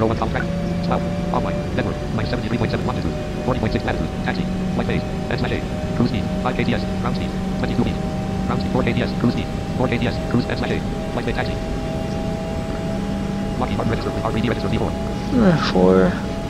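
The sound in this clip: An airplane engine drones steadily while the aircraft taxis. A low hum and constant tonal whine continue throughout, with many faint clicks and a brief burst of higher tones near the end.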